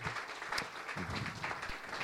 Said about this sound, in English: So I think we ought to give Sister Blackshear a big hand clap.